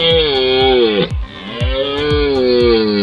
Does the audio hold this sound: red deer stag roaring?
yes